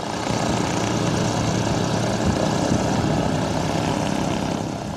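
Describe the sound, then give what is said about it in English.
Steady whirring roar of a hydrogen-powered hexacopter aircraft lifting off at an airport, its rotors and engine making a dense, loud drone that holds nearly constant throughout with no voices. “And slowly, surely, the hydrogen-powered hexacopter lifts off the ground.”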